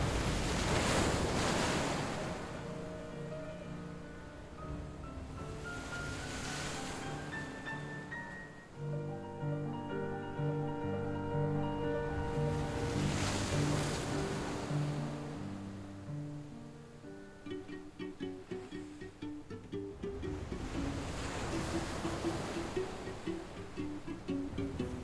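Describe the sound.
Sea waves roll in and wash back in a few broad, hissing surges that swell and fade slowly. Steady tonal notes and a soft rush of wind run underneath the whole time.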